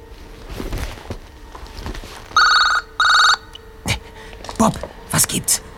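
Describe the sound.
Telephone ring tone heard on an outgoing call: two long, steady electronic ring bursts with a bright, buzzing tone, separated by a short gap and set over background noise and voices.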